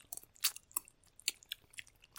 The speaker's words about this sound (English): We're doing eating in ASMR.